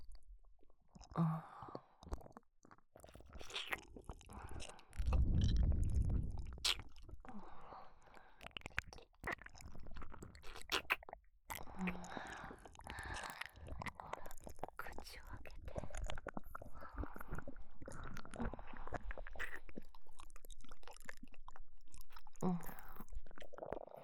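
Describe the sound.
Soft, wet chewing and eating sounds with intermittent smacks and squishes, mixed with quiet whispering throughout.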